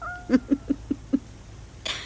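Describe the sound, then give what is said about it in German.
A blind, deaf cat in a cemetery in Punta Arenas gives five short, low, evenly spaced calls in quick succession, followed by a brief burst of noise near the end. “Diese Katze ist blind und taub.”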